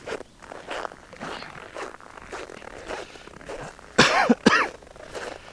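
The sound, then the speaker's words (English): Footsteps crunching on crisp ground in bitter cold of about 0 Fahrenheit, with a squeaky, styrofoam-like texture: a steady run of scratchy steps, then two louder, squealing crunches near the end. “What does that even sound like? It's like I'm walking on styrofoam packing peanuts.”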